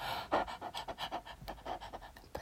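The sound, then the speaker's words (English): A person pants rapidly with the tongue out, imitating a dog, producing many quick, breathy huffs in a steady rhythm at a quiet level. “I'll stick out my tongue and pant for you.”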